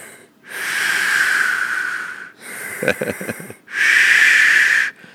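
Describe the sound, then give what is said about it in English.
A voice imitating heavy breathing during a tense fight, with three long, loud, hissing breaths. The middle breath is rougher and more broken than the other two. “and then you just start feeling your breath like.”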